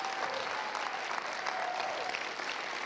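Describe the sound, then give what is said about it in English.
An audience applauds to welcome a pastor onto the stage, a steady, continuous wash of clapping that stays even and fairly quiet throughout. “why don't we put our hands together and welcome Pastor Shane Willard.”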